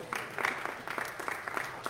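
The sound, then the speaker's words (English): A church audience applauds after a landscaping fundraising goal is exceeded, a light, fairly quiet round of clapping with separate claps in an uneven rhythm. “Well, I think that deserves some clapping and a round of applause.”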